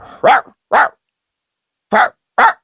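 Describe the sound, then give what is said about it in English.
Fake Doberman barking from a home security device: four sharp, loud barks in two quick pairs separated by a short silence. “People have fake dog bark. Somebody get a fake Doberman.”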